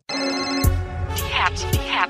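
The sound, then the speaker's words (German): A phone-style ring sounds as a hotline is dialled in a German football (DFB) update segment: sustained bright tones with two warbling trill bursts and a couple of low thumps, with no talk over it. “Deswegen wählen wir jetzt schnell die Herze-Hotline für ein DFB-Update.”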